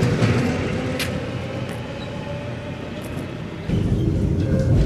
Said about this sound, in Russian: Трамвай уезжает.